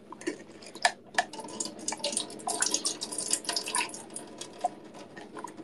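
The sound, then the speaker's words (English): Canned beans rinsed under running tap water: an irregular, faint patter of splashing and crisp drips, with scattered louder spatters as the water hits the beans. “Washing beans!”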